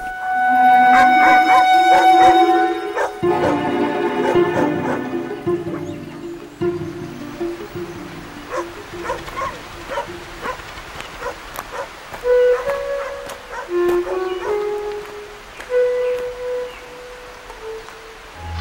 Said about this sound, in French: Alors on entend les chiens, combien il y a de chiens ici ?